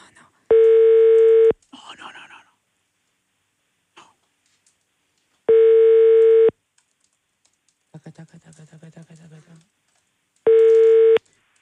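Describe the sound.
A telephone call rings out as three long, steady ringback tones repeat at even intervals, with soft clicks and tapping in the quiet gaps between them.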